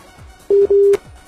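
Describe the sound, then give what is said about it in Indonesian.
A telephone busy tone sounds during a call with a poor signal from the caller. Two short, steady beeps at one mid pitch come in quick succession, loud over faint line noise. “Tutut lagi. Ada gangguan sinyal dari penelpon.”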